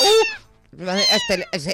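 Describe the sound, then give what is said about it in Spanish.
A cat yowls in distress with loud, drawn-out, wavering high cries. A long wail comes first, then a brief pause, then several more bending yowls. “Eso de un sonido de un gato en celo no es así. No, eso es un gato pasándolo mal, no pasándolo bien.”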